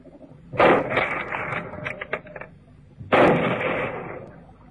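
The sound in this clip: Two loud gunshots fired at something in a river, each a sharp crack followed by a long, rumbling decay, the second coming about two and a half seconds after the first.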